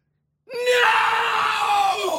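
A person shouts as loudly as possible into a decibel meter in a contest for the loudest yell. One strained, sustained scream bursts in after silence and holds loud and raw to the end.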